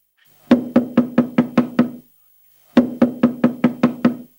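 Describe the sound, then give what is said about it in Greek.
Knocking on a door, struck in two quick, even runs of seven sharp raps each with a short pause between, loud and with no voices. “Τόση ώρα χτυπάω και δεν βγαίνει κανένας.”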